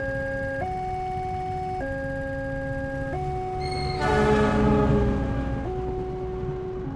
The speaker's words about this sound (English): I've curated a number of trains that I've recorded during my Watson Fellowship